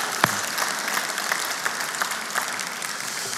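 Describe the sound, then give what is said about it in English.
An audience applauds to welcome a guest at a church service, with steady, even clapping from many hands, moderately loud and unbroken throughout. “Welcome at Kilpatrick. We're so happy that you're here. Amen. Come on, let's give him a hand.”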